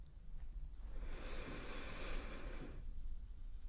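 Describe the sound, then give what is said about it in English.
One slow, deep breath drawn in through the nose during a calming relaxation session. It is quiet and airy, swelling in the middle and then fading away. “Deep breath in through your nose.”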